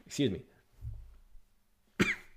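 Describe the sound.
A person coughs sharply, with two distinct bursts separated by a short pause and a softer throaty sound between them. There is no clear talk around the coughs.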